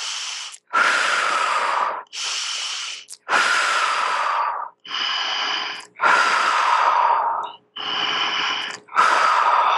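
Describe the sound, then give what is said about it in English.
Deep breaths in and out with puffing exhalations during a group breathing break: seven loud, airy bursts of breath, each about a second long and separated by short pauses. “we're going to breathe together you know three deep breaths in and out puff it out let's do the puffing out”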